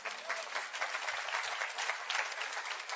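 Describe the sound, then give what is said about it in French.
Applause from an audience during a religious service: dense, steady clapping that fills the whole stretch at an even level, with no voices standing out above it. “que Dieu soit béni, il y en a 15 qui applaudissent.”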